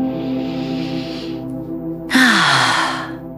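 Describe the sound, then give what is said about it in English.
Deep relaxing breaths: a long airy inhale, a short pause, then a sighing exhale carrying a voiced tone that slides down in pitch, all over a steady low background tone. “Let's take a couple of deep breaths. One more.”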